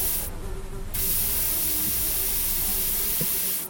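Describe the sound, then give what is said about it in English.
Insecticide spray hisses at flies as it is aimed into corners and along pipes. A steady, breathy hiss runs through the whole clip, and a faint insect buzz sits beneath it. “I sprayed every little nook and cranny, every pipe.”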